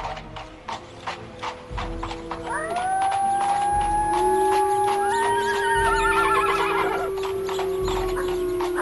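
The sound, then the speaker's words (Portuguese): A carriage team of restless horses whinnies in loud, wavering neighs over a continuous clip-clop of hooves, the calls rising and layering as the hoofbeats keep a steady rhythm. “Os cavalos ficaram irrequietos e necessitaram da força do cocheiro para acalmá-los.”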